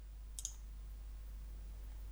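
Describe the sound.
A single computer mouse click, sharp, brief and faint, over a low steady hum.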